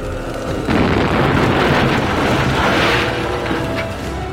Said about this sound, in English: Pass me a grenade. We're going to take out this staircase.